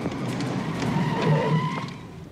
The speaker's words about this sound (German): Die Reifen quietschten.